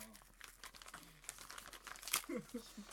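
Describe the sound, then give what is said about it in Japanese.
Faint crinkling and rustling of paper and plastic as an envelope is opened and the plastic-wrapped contents are handled, soft and intermittent, with brief voice sounds near the end. “今封筒開けまして、なんか入ってますねビニールにちゃんと包まれて”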